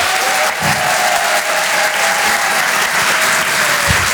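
Audience applause at a French comedy club as the next comedian is introduced, a dense, steady and loud clapping that holds at the same level for the whole stretch.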